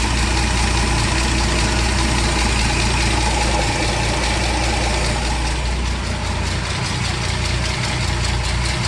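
An engine idles smoothly and steadily, producing a loud, continuous low rumble with even vibration. It runs alone throughout, with no talk.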